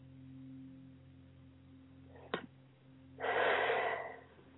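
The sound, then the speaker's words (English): A single long, deep breath comes as a soft, airy rush lasting over a second, just after a brief click, above a faint steady low hum. “Take four long deep breaths.”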